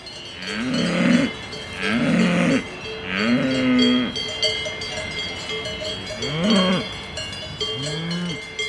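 Simmental cows moo in a series of low, drawn-out calls spaced a second or more apart. Their cowbells clank and jingle steadily underneath throughout.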